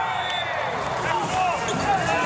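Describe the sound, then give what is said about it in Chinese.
A volleyball struck in a powerful jump serve that lands out, heard as ball impacts under continuous commentary and crowd noise. “这球很主动的大力跳发，结果呢是出界了。”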